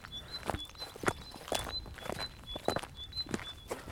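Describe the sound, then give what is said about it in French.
Footsteps walk along an outdoor road in a steady, even rhythm of soft, fairly quiet thuds repeating throughout. “On marche sur une route.”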